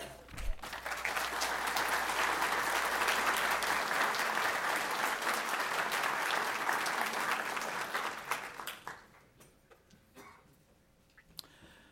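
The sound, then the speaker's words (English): Audience applause welcomes a speaker at a history talk at the Virginia Historical Society. Dense, steady clapping lasts about eight seconds, then fades to a few scattered claps. “So please join me in a warm VHS welcome for David Keehn.”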